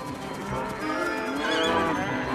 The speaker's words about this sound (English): The cows run off. The cows eat the grass on the field.